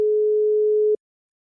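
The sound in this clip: A single steady telephone tone sounds after a number is dialed for a prank call, a clean mid-pitched beep holding for about a second before cutting off into silence.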